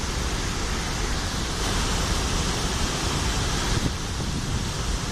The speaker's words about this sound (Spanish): Este es el sonido de hace apenas unas horas, es el desembalse de agua en el pantano de Los Hurones, en la provincia de Cádiz.